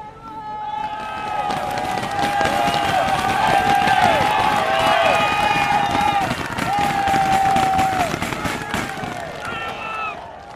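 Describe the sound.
Belgian fans cheer riders on a cycling race climb: a loud, continuous roar of crowd shouting and cheering with sustained tones rising above it, steady throughout.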